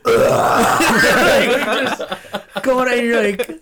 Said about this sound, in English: Can do without the obnoxious belching straight into the mic.